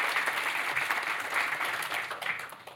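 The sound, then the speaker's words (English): Audience applause greets a guest arriving for an on-stage couch interview: dense, steady clapping from many hands sustains at an even, fairly loud level for the whole stretch, thinning slightly toward the end with no voices above it. “So please put your hands together and welcome Sandra.”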